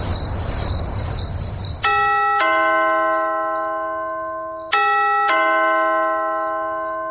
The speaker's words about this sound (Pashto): د دروازې زنګ ووهل شو، ته ورڅه وګوره چې څوک دي.